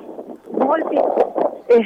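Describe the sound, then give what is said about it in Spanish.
Wind buffeting the microphone outdoors during a street march, a rushing, rumbling noise tangled under a steady speaking voice. “el viento acá también nos acosa un poco.”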